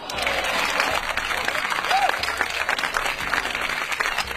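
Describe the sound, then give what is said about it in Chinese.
Applause from a crowd: dense, steady clapping that continues evenly for several seconds. “应该为小强鼓掌。”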